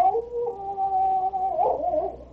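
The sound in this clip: A dog howls at the moon from the bow of a rowboat: one long, steady, mid-pitched howl that wavers and breaks near its end, clear and unaccompanied.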